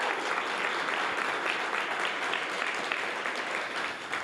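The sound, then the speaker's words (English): Audience applause welcoming election candidates at a live forum: sustained, dense clapping from many hands, steady and fairly loud for about four seconds. “Also joining us for this live broadcast is our audience. Please welcome our candidates.”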